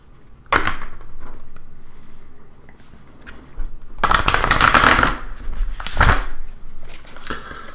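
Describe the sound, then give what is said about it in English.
Riffle shuffling of a deck of playing cards: a few dry, crackling bursts of rapid flicking, with the longest run in the middle and a shorter one following, separated by quieter handling. “let me give him a shuffle”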